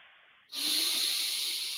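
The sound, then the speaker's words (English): A deep breath drawn in during a guided breathing exercise: after a faint lead-in, a steady, airy hiss begins abruptly at about half a second and holds evenly to the end. “Breathe everything out, out, out. Take a deep breath in.”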